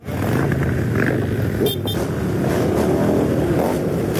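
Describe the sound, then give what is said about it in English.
Motorcycle engines roar from hundreds of motorbikes riding in a convoy through Swindon in southern England to escort a teenager to his prom, a loud, continuous, layered rumble that swells in at the start and holds steady. “That's the sound of some of the hundreds of motorbikes that turned out in Swindon in southern England to escort Josh Duff”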